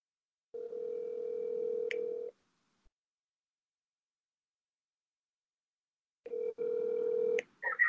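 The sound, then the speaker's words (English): Faint ringback tones as a phone call is placed to a caller: two long, steady ring tones separated by several seconds of silence, with the second ring broken by clicks and a short, higher burst at the end. “So first caller, we're gonna hit up Tom Fox.”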